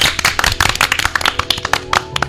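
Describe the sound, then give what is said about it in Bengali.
Loud applause for a singer after her song: a dense, steady patter of many hands clapping that fills the whole stretch with no voices over it. “অনেক অনেক ধন্যবাদ দেবদত্তাকে, একটা জোরে হাততালি।”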